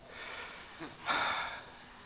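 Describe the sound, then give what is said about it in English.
A single breath is drawn in, a soft breathy rush that swells briefly and settles back over a low background hiss. “Who made you? Take a breath.”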